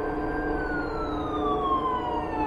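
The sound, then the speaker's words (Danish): Wailing sirens of police and rescue vehicles arriving in a neighbourhood one morning: a loud, continuous steady tone that slowly falls in pitch across the whole stretch, with no break in the sound. “Hylende sirener gennemskar stilheden i kvarteret den morgen, da politi og redningsfolk mødte talstærkt op.”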